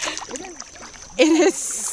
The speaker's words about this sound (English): Real quick, look over your right-hand side and dip your paddle in.